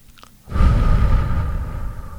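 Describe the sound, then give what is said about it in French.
Breathing in a relaxation exercise: a faint, brief inhale followed by a long, loud, airy exhale that slowly fades. “Inspirez sur un temps. Expirez sur 3 ou 4. Inspire court et j'expire longtemps.”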